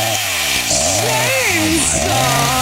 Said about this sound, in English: chainsaw. Sorry to cut you off there.